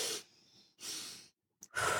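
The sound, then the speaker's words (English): Audible breathing in a calming breath-work exercise: a few airy, hissing breaths separated by short pauses, soft and unaccompanied by talk. “there's another one where you take 2 inhales and 1 exhale.”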